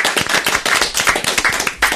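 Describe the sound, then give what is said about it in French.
An audience claps for the winner of a game show. The clapping is a brisk, dense patter of many hands that keeps steady and fairly loud throughout. “Bravo à Mélinda, on peut l'applaudir.”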